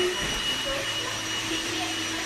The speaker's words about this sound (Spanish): Estamos en la fase de secado, cuando corta el pelo. ¿Veis el secador?